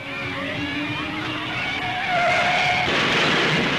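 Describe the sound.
Tyre squeal from a race car skidding during a small accident in a car race, a sustained, wavering screech over rough car noise that grows louder toward the end.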